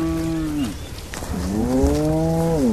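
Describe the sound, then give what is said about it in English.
Cattle low as a herd is driven out of a village in western Uganda at seven in the morning to graze near a lion reserve. Two long, deep moos rise and fall in pitch over a steady outdoor background. “It is 7 a.m. and 35-year-old Francis Kaiwa is taking his herd out of Hamukungu village to graze.”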